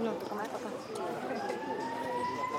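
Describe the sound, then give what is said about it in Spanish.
A warning siren sounds on an avenue ahead of a building demolition, its wailing tone rising steadily over a dense, noisy background. “De un momento a otro, una sirena empezó a sonar.”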